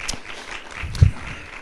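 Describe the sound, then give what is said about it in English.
Audience applause for a live band, brief and moderately loud, with one stronger burst near the middle before it settles. “By the way, your band, I always compliment it, but what a nice band you have. Give them guys a hand clap. Good job, man.”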